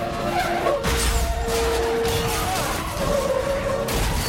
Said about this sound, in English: Smashes into another parked car, swerves to avoid another head-on collision, but then takes out three more cars in the process.